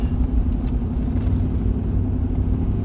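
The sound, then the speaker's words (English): A car drives along a beach, giving a steady low engine rumble with road noise that holds even and continuous throughout, with no talk. “Right now I'm driving along the beach”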